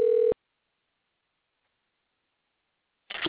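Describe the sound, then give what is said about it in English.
A short electronic telephone tone sounds as a call is dialed: one brief steady beep at the start, then near silence, then a short noisy burst at the very end. “And it's dialing.”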